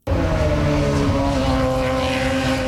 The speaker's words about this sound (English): IndyCars are hitting the track for the first time in Markham, Ontario today.